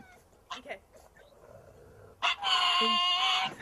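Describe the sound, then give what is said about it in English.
A pug vocalizes: a couple of short yips, then a drawn-out, tonal bark-howl that sounds as if the dog is saying a word. “Oh yes, that's the pug that says Batman.”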